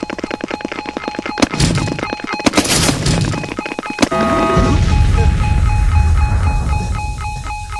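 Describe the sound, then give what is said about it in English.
Missiles fired at enemies in a shooter video game: rapid rattling pulses broken by a few sharp, loud bursts, then a steady rumbling roar with faint electronic tones. “Let's throw some missiles at these guys.”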